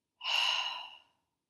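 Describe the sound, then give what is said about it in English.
A single deep breath, soft and airy, rising quickly and fading out in under a second, faint and alone with no talk. “We're going to take one nice big deep breath in, deep breath out.”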